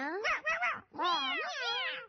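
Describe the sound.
Drawn-out, wavering cat meows at a wedding celebration greeting the newlyweds: a few loud, high, gliding cries in two main stretches with a brief gap between, heard alone.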